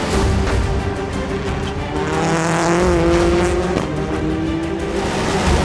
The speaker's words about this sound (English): Sverre's heat race is more eventful. After a strong launch, Sverre is in fourth, then quickly up to third.